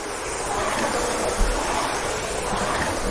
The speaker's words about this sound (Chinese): 正常的 CrossFit 的训练当中，划船机它是一个，怎么说？它是一个热身训练吗？